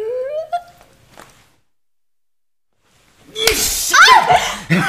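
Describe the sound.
A single sharp slap, someone hitting a person in a Korean drama scene: a voice, a pause of near silence, then one loud, crisp crack followed by agitated vocal sounds.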